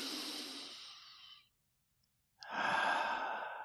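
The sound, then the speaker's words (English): A slow, deliberate deep breath, heard as two long, airy breath sounds with a clear pause of about a second between them, soft and alone. “I think I'll take a breath right now.”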